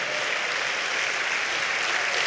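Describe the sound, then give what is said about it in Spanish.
Applause from a church audience during a service: dense, even clapping that holds steady from start to end at a moderate level, with no clear break or peak. “¿Cuántos dan un aplauso a Dios por eso,”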